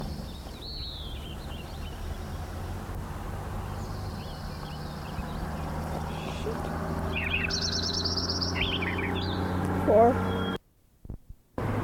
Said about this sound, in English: Lincoln Sparrow number one again.